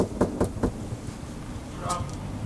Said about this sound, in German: Gut, dann gehen wir mal ran an die Tür und klopfen.